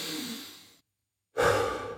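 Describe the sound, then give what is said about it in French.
Heavy breathing while catching one's breath: a long, airy exhale fades away, then after a brief silence a sudden loud breath starts sharply and slowly eases off. “Allez, on reprend notre souffle.”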